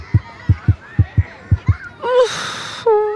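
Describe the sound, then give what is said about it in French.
A heartbeat pounding hard, seven low thumps in an uneven lub-dub rhythm, followed by a breathy rushing sound with a faint tonal note. “Toudou a un peu peur. Il a le cœur qui bat fort.”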